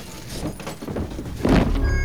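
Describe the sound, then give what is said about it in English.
A dead body tumbles out of an opened closet in a sparse apartment, landing with a dull, heavy thud after a few soft knocks and shuffles from the door. “He opens the closet door, and a dead assassin falls out.”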